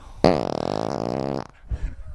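A loud fart during a tabletop fantasy wargame session: a single sustained buzzy blast lasting over a second, with a sharp onset and a steady vibrating tone before it cuts off.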